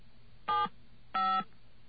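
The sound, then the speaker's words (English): Two short telephone keypad dialing tones for an outgoing call, each a clear, steady two-note beep lasting about a quarter second, separated by a brief pause over a faint hum. “Let's see if we can get an outgoing line. Let's see if we can actually get connected to this number.”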